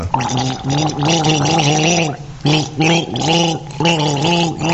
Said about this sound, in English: What number would you choose? I'm going for 1. Number 1. This is gargle number